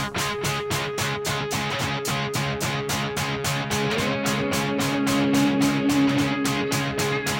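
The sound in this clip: A French-language heavy metal track plays loud and continuous, with a steady pounding drum beat and dense distorted guitars.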